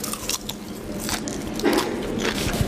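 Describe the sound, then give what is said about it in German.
Crisp bites and chewing of mixed sweet and salty children's popcorn at a cinema: a few crackling crunches over a steady background hiss. “Ich hätte gerne Kinderpopcorn. Ja, süß oder salzig? Äh, gemischt, bitte. Lecker, lecker, lecker.”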